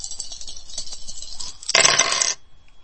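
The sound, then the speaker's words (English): Dice roll in a video game: light scattered clicks build into a dense, loud rattle lasting about half a second, then stop. “Hold dice 1. Hold dice 5. Second roll.”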